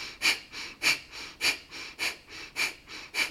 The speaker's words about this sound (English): to prep for this breath of fire. Then you might take a quarter of a breath in to begin.